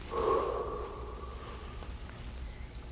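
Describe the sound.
A voice imitates a breath being blown into a lifeless figure: a short voiced huff at the start, then a soft, faint exhale that fades away, heard alone.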